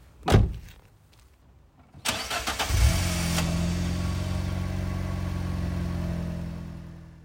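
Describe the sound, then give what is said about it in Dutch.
A car engine cranks and catches after a single earlier thud, then settles into a loud, steady running hum that continues unbroken to the end. “Ik rij gauw naar mijn volgende afspraak met psycholoog Ingrid.”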